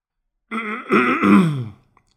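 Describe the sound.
A man clearing his throat before reading aloud, a single voiced, rasping rumble lasting just over a second, alone and fairly loud.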